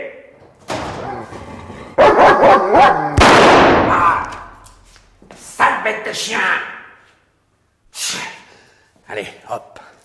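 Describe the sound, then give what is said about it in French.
A dog barks in loud, uneven bursts mixed with yips, snorts and brief whimpering, the barks clustering early and then thinning into shorter, scattered yelps. “Liquider le chien. Pas mort, mais c'est tout comme. Quelle peur il m'a fait, sale bête.”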